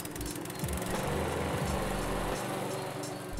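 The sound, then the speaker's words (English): A lawnmower engine runs in a steady, loud, low drone with a rough mechanical rattle. Its pitch shifts slightly a few times but the running never stops. “when you think of a lawnmower, it probably sounds something like this.”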